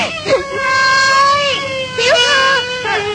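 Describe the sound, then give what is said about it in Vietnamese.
A young noblewoman weeps in a drama scene: a few drawn-out, wavering wails and sobs with pitch that bends and breaks, loud against a quiet background. “Tiểu thơ khóc à?”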